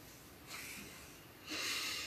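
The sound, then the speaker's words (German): A deep breath at the end of a guided relaxation exercise: two soft, airy swells of breathing, the second one fuller. Both are faint and come without any talk. “Dann nimm noch einen tiefen Atemzug.”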